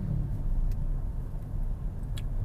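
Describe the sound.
Steady low rumble of a car engine and road noise while driving, continuous and even throughout with no voices.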